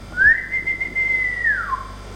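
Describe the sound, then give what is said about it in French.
A silver whistle is blown once: a single sustained clear note that rises quickly, holds steady, then slides downward as it fades. “Tiens, prends ce sifflet d'argent. Tu n'auras qu'à siffler.”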